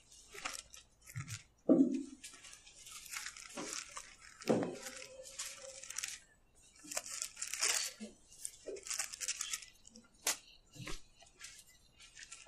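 Bible pages being flipped over to Romans chapter 8, a series of papery rustles, flicks and crinkles of varying loudness, with brief pauses between turns.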